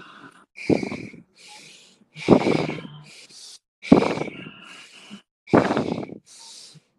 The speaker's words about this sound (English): Just stay with the breath. You can do anything for 10 more seconds. In through the nose, out through the nose. Keep going.